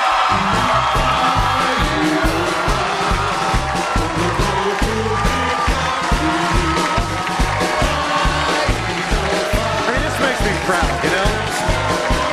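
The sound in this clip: A studio audience at a late-night talk show cheers, whoops and applauds Super Bowl-winning Philadelphia Eagles players as they arrive. The crowd noise is loud and dense, and it keeps up without a break.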